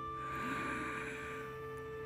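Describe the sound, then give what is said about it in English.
A group draws a deep, audible inhale together during a guided breathing exercise: one long, steady breath sound held at an even level over a sustained tonal hum. “Now, let's all take a deep inhale together”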